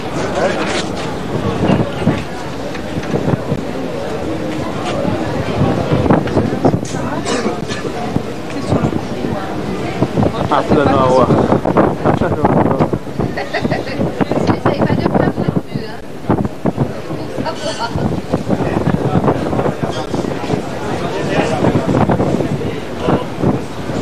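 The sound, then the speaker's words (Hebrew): Strong wind on Crete buffeting the microphone: a loud, continuous gusting rumble that swells and eases throughout, with people talking over it. “פה יש הכי הרבה רוח, אתה רואה?”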